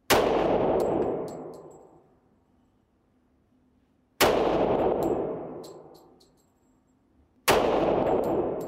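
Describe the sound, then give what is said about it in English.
Three loud .45 pistol shots fired at a target, spaced several seconds apart, each a sharp, sudden crack followed by a long, slowly fading ring. “Now we're going to shoot you, or show you the 45. And let's compare the hole that it leaves.”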